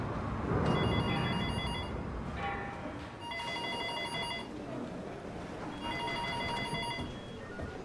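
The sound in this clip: A telephone rings in a few long, bright, trilling bursts separated by short pauses, each burst steady and fairly loud over a constant background hiss.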